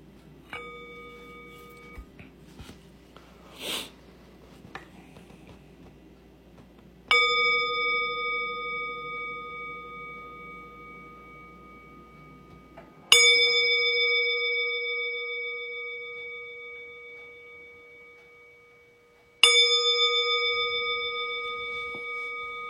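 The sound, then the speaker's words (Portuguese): A meditation bell rings to open zazen practice, struck three times at even intervals over a low, steady background. Each strike gives a clear, bright tone with lingering overtones that decays slowly before the next. “faz uma reverência quando o sino começa a tocar e nos convida a praticar”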